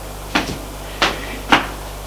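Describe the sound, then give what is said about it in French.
A door is being opened, heard as three short, sharp clunks and clicks spaced apart over a steady low hum. “Il ouvre la porte”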